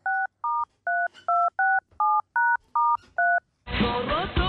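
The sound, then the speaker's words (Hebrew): Telephone keypad dialing tones: nine short, even beeps of shifting pitch in a quick, steady sequence, followed by a louder, noisier burst of sound at the end. “מרדכי בן דוד מחייג ליניב בן משיח”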